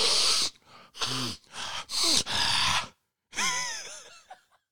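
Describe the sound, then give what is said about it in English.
A person imitates noisily snorting a nasal allergy spray, making several sharp, forceful nasal snorts and sniffs in bursts, then a longer, voiced exhaling snort. “I love taking my my Flonase and making it sound and look like I'm fucking Tony Montana snorting a fucking line”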